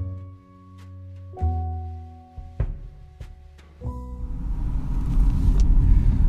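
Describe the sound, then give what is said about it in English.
A car drives and turns onto a road. A low engine hum shifts pitch in a few steps, then rumbling road noise builds steadily toward the end. “Okay, so I am turning on to Selma Drive.”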